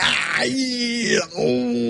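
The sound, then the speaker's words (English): A voice imitates pained yelling and groaning, as after stepping on an extension-cord plug: two loud, drawn-out strained cries with a brief break between them. “I stepped on that, and that was pretty painful. That one had me yelling and screaming at the ceiling, like,”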